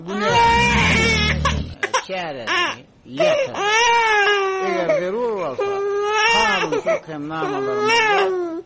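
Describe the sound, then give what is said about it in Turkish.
A baby cries in long, wavering wails that rise and fall in pitch, broken by short gaps and lasting nearly the whole time. “Sonra olorun bebeği ağlap başlayar.”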